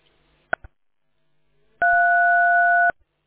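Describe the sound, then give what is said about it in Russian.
Telephone busy tone: two short blips, a pause, then one long steady beep that cuts off abruptly. “Одни гудки идут.”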